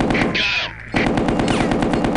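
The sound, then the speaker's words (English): A machine gun fires in rapid, loud bursts. The fire is continuous apart from one brief pause near the middle, then resumes just as densely. “Machine gun.”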